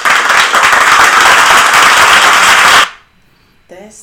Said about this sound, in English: Round of applause for the daycare being full